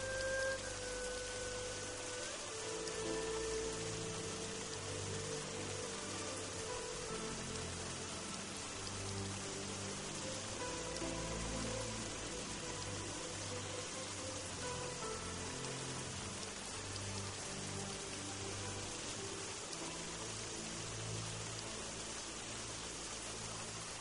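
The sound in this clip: Rain falls in a steady, soft hiss that holds evenly for the whole stretch, quiet and continuous, with a faint tonal hum in the background.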